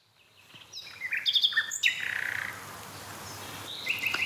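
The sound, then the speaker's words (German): A nightingale sings alone on the first of May, a quiet phrase of varied whistles and chirps that runs into a buzzy trill, then a few higher notes. “Sehr schön. Danke, liebe Nachtigall.”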